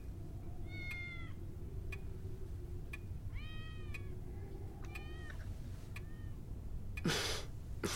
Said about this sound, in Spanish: Aquí hay muchos gatos. Sí, ya son... Once. Creo que hay once.